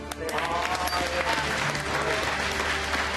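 Dense, steady audience applause celebrates Lee Sedol's first win over AlphaGo after three straight losses in their Go match. The clapping stays full and even throughout.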